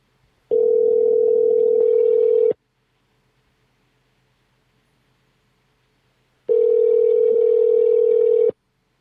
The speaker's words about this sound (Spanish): Voy a llamar de nuevo. Llámalo otra vez.